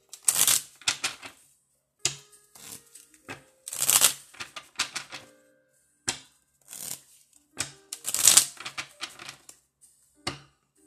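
Playing cards being shuffled by hand during a card reading, heard as several crisp bursts of riffling and flicking separated by short quiet gaps, with no talking.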